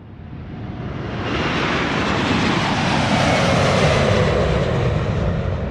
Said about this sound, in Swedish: Till slut lyfter i alla fall planet mot norra Europa.